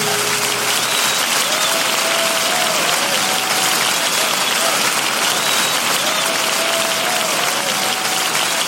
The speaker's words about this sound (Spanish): Dele fuertes palmas al Señor,